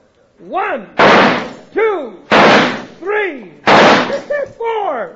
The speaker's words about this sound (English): cut the talk and shoot